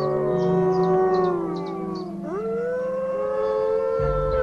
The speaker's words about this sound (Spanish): Sean quiere que su manada en cautiverio aprenda las mismas habilidades esenciales que poseen los lobos salvajes. Deben aprender a contestar al aullido de otra manada rival distante.